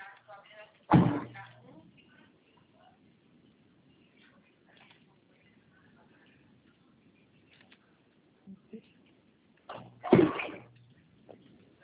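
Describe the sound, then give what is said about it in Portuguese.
Doors being shut in consulting rooms: two sharp, loud bangs several seconds apart, with a couple of fainter knocks just before the second. “Eu estou batendo aqui, são as portas, tá?”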